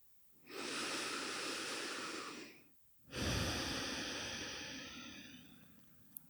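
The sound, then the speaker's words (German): Deep breathing during a seated meditation with eyes closed: two long, steady, airy breaths, each lasting a couple of seconds and separated by a short pause, clearly audible with no talking. “Atme tief ein und aus.”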